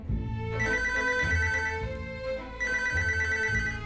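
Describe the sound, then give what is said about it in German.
A telephone rings with a bright, repeating electronic tone in two ringing bursts separated by a short pause, over a steady low background. “Doch da ruft erneut der Schwiegersohn an.”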